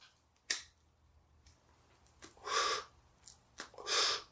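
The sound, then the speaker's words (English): A voice imitating a deep inhale, drawing long, breathy sucking breaths in short bursts after a sharp click near the start, fairly faint and without any talk. “And he like inhales.”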